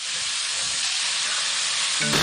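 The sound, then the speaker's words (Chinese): Fatty pork sizzling in hot oil as Sichuan twice-cooked pork is fried, a loud, steady, dense hiss that holds without a break from start to finish. “我们四川的肥锅肉，它还是先要放油，虽然它这个肉里面有肥肉。 也就是咱先炒肉，是吧？”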